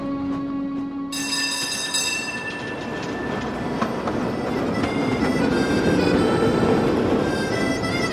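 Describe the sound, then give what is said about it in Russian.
A rail car rumbles and clatters as it departs into the taiga on a red-and-white tram route near Ust-Ilimsk, Irkutsk region. The noise is steady and dense, with a high tonal whine over it, and it grows slightly louder toward the end. “Состав уходит в тайгу.”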